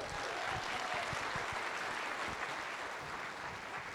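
A church audience applauds to welcome a guest pastor to the stage during a morning service. Soft, steady clapping from many hands continues evenly throughout.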